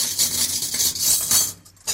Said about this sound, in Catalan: Remeno calaix dels coberts. Culleres, ganivets, forquilles, culleretes, bastonets japonesos, pinces, obridors i coses que no sabem com hi van anar a parar. Aquest dringar metàl·lic fa de banda sonora quan pares taula